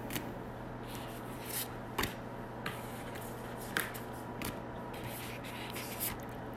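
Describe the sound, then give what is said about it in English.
Oracle cards being picked from a deck give faint, scattered soft clicks and snaps at uneven intervals over a quiet, steady low hum, with no talking. “while I'm picking my 11 cards”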